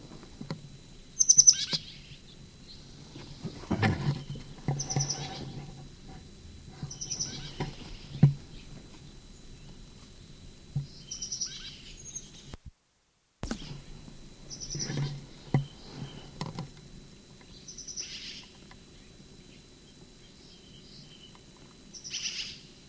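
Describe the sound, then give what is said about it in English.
A bird in a sycamore tree gives many faint, high, thin peeps, scattered singly and in short clusters at uneven intervals over a quiet low rumble. “Sycamore bird. First peep.”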